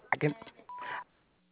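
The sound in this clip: A single steady answering-machine beep, about a third of a second long, follows a brief burst of speech and then gives way to near silence.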